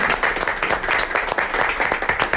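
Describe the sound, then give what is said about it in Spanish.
Audience applause: brisk, continuous clapping from a crowd, fairly loud and even across the short stretch with no pause. “Este aplauso es para usted y para todos los agricultores de este país, de España.”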